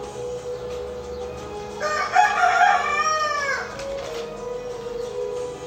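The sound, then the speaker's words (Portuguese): A rooster crows once during a tabletop role-playing game session, a single drawn-out call with bright wavering harmonics over a steady background hum. “O galo aqui no reino de Asgard canta toda hora, né?”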